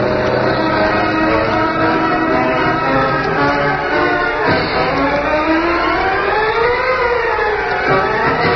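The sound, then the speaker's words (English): A car engine revving as the driver accelerates in an old radio drama, a loud, continuous, whining harmonic drone whose pitch dips briefly, then climbs and eases toward the end. “Give it the gas, Cato.”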